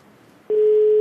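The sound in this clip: A single steady telephone tone, heard while calling someone during an awards ceremony, cuts in abruptly halfway through after faint background noise and holds at a constant mid pitch, loud and unbroken.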